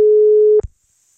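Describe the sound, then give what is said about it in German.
A busy signal sounds on a telephone callback line: one steady, loud tone holds for about half a second, then cuts off with a short click and leaves silence. “Deswegen, da ich dich ja hier auf dem Bildschirm habe, probiere ich es gerade mal mit einem Rückruf.”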